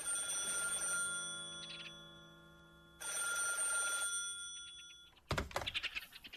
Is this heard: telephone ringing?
yes